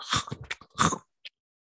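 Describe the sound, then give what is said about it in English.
A voice imitates ASMR chomping on pickles with a few wet, crunchy mouth bursts of uneven length, a short click, and then silence. “ASMR videos. Oh my god, ASMR. Fucking chomping pickles and shit.”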